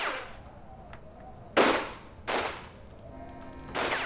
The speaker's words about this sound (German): Ich war kaum vom Hof gefahren, da fielen plötzlich Schüsse.